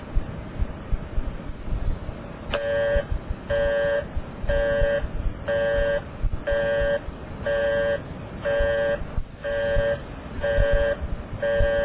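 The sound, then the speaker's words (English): Busy signal from a payphone line: after a couple of seconds of line hiss, a harmonic tone pulses on and off at even intervals, repeating many times through the rest. “I will dial the number of the payphone and you will hear its busy signal.”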